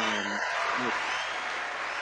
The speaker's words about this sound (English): I had to get the cheers real quick. This is cool.